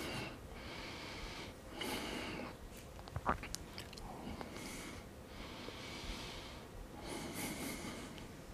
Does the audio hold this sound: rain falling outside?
no